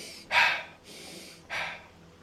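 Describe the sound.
Slow meditation breathing, in through the nose and out through the mouth: two loud, airy breath bursts with a softer, longer breath between them. No talking.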